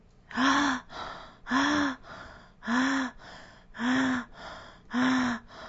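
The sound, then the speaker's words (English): Five short, shallow breaths in a breathing exercise done while resisting with the thumbs. Each is a sharp, breathy burst at an even rhythm, with a softer breath between each pair. “We will now practice this sequence together, starting with 5 sets of 5 shallow breaths and resisting with your thumbs.”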